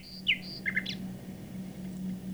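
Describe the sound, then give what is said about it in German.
Song of a nightingale played back from a PC connected over a telephone line: a few quick, faint chirps and whistled high notes in the first second, over a low steady hum. “Was hier fröhlich zwitschert, ist eine Nachtigall. Doch ihr Gesang kommt nicht etwa von einer Vogelstimmen-CD oder einem Tonband, sondern aus dem PC in meinem Arbeitszimmer.”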